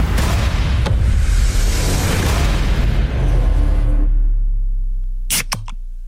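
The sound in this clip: A soda can in a sound-guessing game gives a loud, rushing fizz that fades over several seconds, followed by a few short, sharp clicks.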